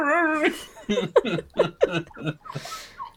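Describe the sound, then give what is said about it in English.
A voice imitates a whimpering dog, starting with a drawn-out wavering whine and breaking into a few short, whiny vocal yelps and breathy gasps, fairly loud and alone. “And I'm like, going away like a whimpering dog, like,”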